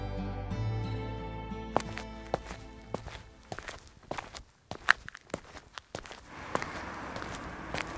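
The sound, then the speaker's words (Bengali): Footsteps of someone walking along a road after leaving a village: many crisp, slightly irregular steps, quiet at first beneath a fading low hum, then clearer and sharper. “সে গ্রাম দিয়ে বেরিয়ে রাস্তা ধরে হাঁটতে থাকে”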